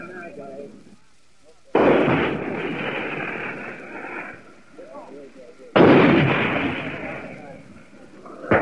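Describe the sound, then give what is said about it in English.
Artillery shells exploding on a brown hillside during a tank assault, two heavy blasts several seconds apart, each a sudden loud roar that rumbles and slowly fades, with faint voices heard between them. “These shells are bringing up mushrooms of white and black smoke on the side of this brown hill ahead of us.”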